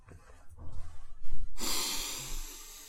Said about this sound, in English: That's why you did a great inhale. Oh, I didn't know we were recording. We were recording. Let me inhale again.